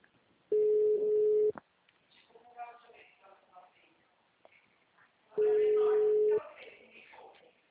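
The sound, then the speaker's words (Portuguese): Telephone ringback tones on a call to a Santander bank branch: two steady, mid-pitched tones about a second long, with a voice talking in the pause between them. “eu tô tentando falar lá, tá? Tô ligando pra eles.”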